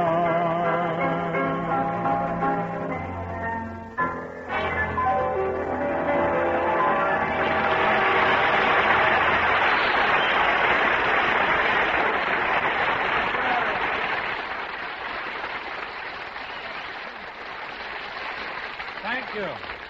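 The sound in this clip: Music ends and a crowd breaks into applause, a dense roar of clapping that swells, holds strongly for several seconds, then gradually thins and fades.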